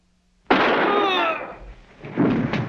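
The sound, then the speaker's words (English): A gunshot cracks out as a sudden loud blast with a rumbling tail of about a second, then a further softer rumbling burst. “Just shot Devonshire.”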